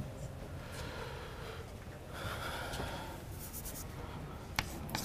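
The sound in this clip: Steady scratchy strokes of writing on a board during a spoken maths explanation, a continuous dry rasp with brief pauses and one sharp tick near the end.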